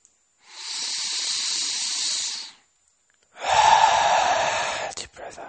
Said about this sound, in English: So let's take a deep breath in.